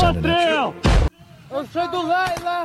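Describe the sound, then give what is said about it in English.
A single loud, booming 40 mm grenade launcher shot from Ukrainian special forces in combat footage, set between stretches of voices talking. “Look, they're having a blast, shooting 40 mic mics everywhere. Crushing 40 mic mic in every direction.”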